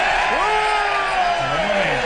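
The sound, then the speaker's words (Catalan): A crowd cries out in joy at the announced removal of tariffs on Irish whiskey, a loud steady cheer with whoops and raised voices rising and falling over the din. “Home, bueno, en fi, crits d'alegria.”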